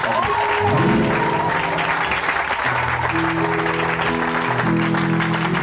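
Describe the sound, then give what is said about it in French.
A church audience applauds and cheers, a dense, continuous wash of clapping that holds at a steady, fairly loud level throughout. “Est-ce qu'on peut acclamer Dieu”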